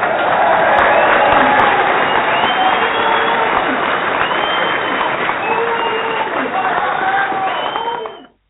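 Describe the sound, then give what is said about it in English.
Audience applause and cheering for a guest, a loud, steady wash of clapping mixed with whoops and voices that holds for about eight seconds and then cuts off abruptly. “Holly, we want to give you a one-time round of applause.”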